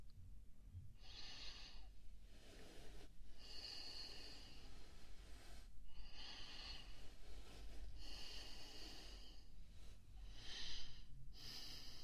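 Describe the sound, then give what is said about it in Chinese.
Breathing, slow and steady, with a few breaths rising and falling in turn. Each one has a soft, airy hiss, and there is no talk. “能听到你的呼吸。”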